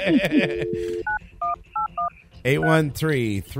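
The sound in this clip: Touch-tone telephone keypad dialing a number: four short, clean dual-pitch beeps at an even pace, with voices talking before and after them.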